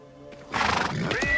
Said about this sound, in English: The horse bucks.